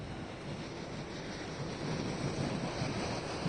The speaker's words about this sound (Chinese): 你现在是在基隆的码头，你感受到呢现场这个台风带来的风势雨势如何？